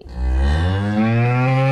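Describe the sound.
A single long, loud moo from cattle at milking time on a farm where a bull and a cow are together; the call is deep, sustained and resonant.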